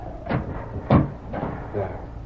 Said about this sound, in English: Wait till I close this door.